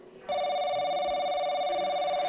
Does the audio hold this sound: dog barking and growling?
no